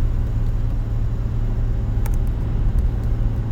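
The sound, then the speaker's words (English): Steady low road rumble fills the inside of a moving car while driving, a constant dull drone with no voices, broken only by a couple of faint brief clicks midway. “excuse the background noise. I'm in the car and”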